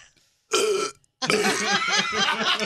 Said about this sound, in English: I feel like drinking a Coca-Cola and burping.